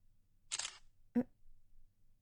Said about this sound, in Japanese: でも何かに使えるかもだし、一応写真撮っとくか。